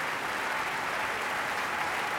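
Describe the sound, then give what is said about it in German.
An opera audience applauds an Australian composer taking his bows. Thick, continuous clapping keeps an unbroken, even level throughout. “Und er bedankt sich bei allen Beteiligten, wird gefeiert, umjubelt vom Publikum.”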